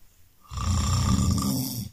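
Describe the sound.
A calm person snores, giving one long, rough, rasping breath that begins after a short quiet start and holds steady and loud until it fades at the end.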